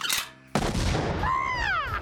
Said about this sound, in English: I'm out of daggers and darts. I'm gonna switch to rifle.